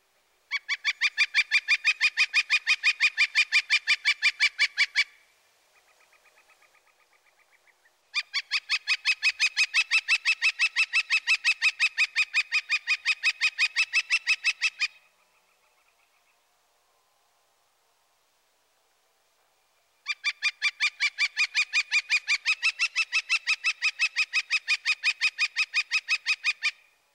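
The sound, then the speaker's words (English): A northern flicker woodpecker calls in three long bouts of loud, rapid, high-pitched notes repeated evenly. Each bout runs several seconds, with short gaps between them that hold only a faint, lower call or near silence. “First, listen to the flicker. He utters a loud, repetitious, quick, quick, quick, quick, quick, quick.”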